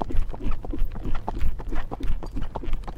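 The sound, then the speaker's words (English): A horse's hooves clop in a slow trot, picked up by a microphone mounted on the horse or rider. Many regular, fairly loud thudding hoofbeats fall in a steady rhythm throughout. “I'm just trotting along slowly here.”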